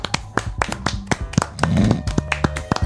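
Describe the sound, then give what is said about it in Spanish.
Applause from a small group, a dense run of sharp hand claps with uneven rhythm that swells briefly in the middle, fairly loud with no talk over it. “Bueno, señores, entonces esto merece un épico. Un aplauso agónico. Un aplauso.”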